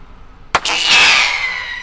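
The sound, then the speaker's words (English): A silver comet bird-scaring pyrotechnic shell fired from a gun on an airport runway: one sharp crack, then a loud, sustained fizzing hiss with a thin whistle that slowly fades toward the end. “So she uses pyrotechnics shot out of a gun. This one is blue with sparkles coming out the back.”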